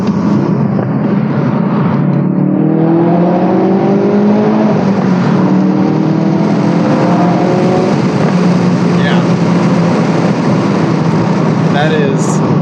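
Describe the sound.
A Ford Focus RS engine revs inside a tunnel with a loud, continuous roar. Its harmonic tones climb in pitch early on, then hold fairly steady over a dense rumble.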